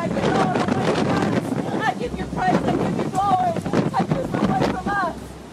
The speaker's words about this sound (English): you can barely hear her praying anymore because of the wind.